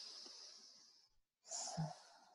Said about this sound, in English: So I'm going to ask you to breathe for a moment.